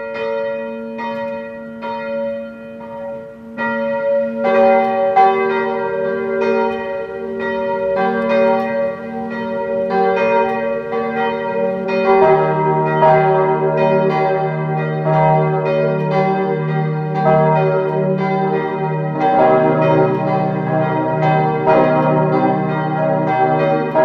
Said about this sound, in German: Es ist 12 Uhr. Sie hören die Glocken der Pfarrkirche Aschbach in Niederösterreich.